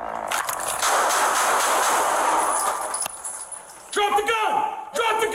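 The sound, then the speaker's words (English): Gunshots fired by a sheriff's deputy, heard in police footage: sharp cracks amid a loud, noisy burst at the start, with another crack later, followed by a raised voice. “before giving commands to drop it, the deputy opened fire”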